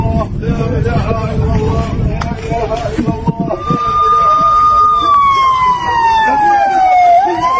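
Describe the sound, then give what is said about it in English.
An air raid siren wails in Palestine, a long steady tone entering midway and slowly sliding down in pitch, over a loud, busy backdrop of noise and men's voices talking. “That sound you hear, that's an air raid siren.”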